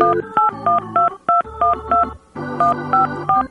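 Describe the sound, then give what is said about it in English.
Touch-tone telephone dialing, a quick run of two-pitched beeps in short even bursts separated by brief gaps, loud and alone. “to make a little phone call. It's hard to dial and talk at the same time.”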